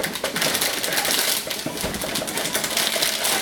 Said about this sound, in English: Now the first stage is to install the processor onto the motherboard, which means we'll unwrap that and then we'll unwrap them.